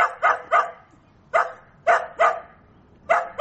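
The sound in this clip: Taigan hunting hounds bark during a tracking competition in the Osh and Jalal-Abad regions. Sharp, loud barks come in short bursts of two or three, with quiet gaps between them.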